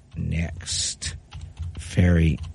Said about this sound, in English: And then I'm going to type it again.